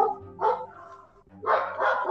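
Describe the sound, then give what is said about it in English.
A dog barks a few times, short mid-pitched barks, one alone and then a quicker pair after a brief pause, fairly faint. “I'm sorry about the dog.”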